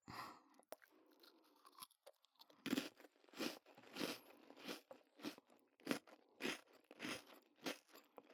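Sweets are eaten with crisp crunching: many sharp, close bites and chews in a steady rhythm, about one every half second, against near silence.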